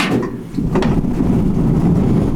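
An observatory dome hatch, newly rebuilt, being opened in a small dome room with a large telescope: a steady scraping, rumbling slide with a few knocks near the start, loud and continuous.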